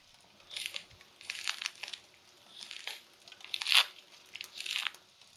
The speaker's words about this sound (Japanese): おみかんの皮、楽々きれいにむけるのし。